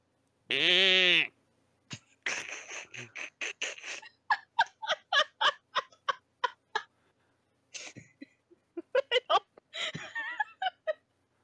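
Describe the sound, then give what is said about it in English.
A sheep gives one loud, drawn-out bleat, then a long series of short, rapid pulses like laughter follows in uneven bursts. “You wake up and you look and there's a crowd of sheep around you.”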